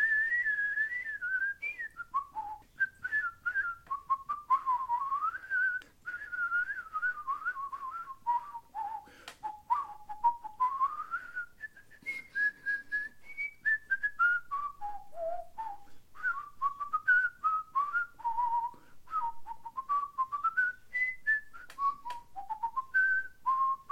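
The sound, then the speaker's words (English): A person whistles a casual, wandering tune for a long stretch. The melody is soft and steady, sliding up and down between notes with a slight waver. No talking is heard. “they say whistling is a very, happy kind of thing, and people whistle when they're happy, and they do, and then I just kind of let out a”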